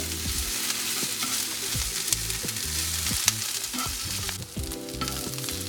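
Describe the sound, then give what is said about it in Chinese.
Onions sizzle as they are stir-fried in a pan until soft, for a diced wagyu beef rice bowl. A bright, continuous frying hiss is broken by small scraping bursts from constant stirring. “然后让它稍微的可以用整个时间跟温度，让呃它的洋葱的中心点整个变成比较软嫩的状态。所以呢，我们要一直不断的翻炒。”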